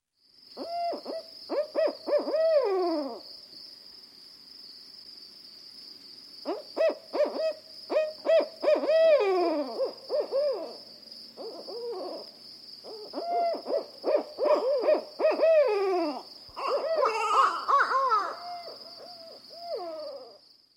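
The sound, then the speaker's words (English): A barred owl hooting in several rhythmic phrases of throaty, falling hoots separated by short pauses, with a thin, steady high-pitched tone running underneath the whole time. “Barred owl.”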